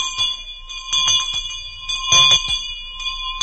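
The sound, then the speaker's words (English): A bell rings in a radio advertisement, a bright, sustained metallic ringing with several overlapping steady tones and repeated softer strikes throughout, with no voice. “General Electric rings the bell with a wonderful contest for you”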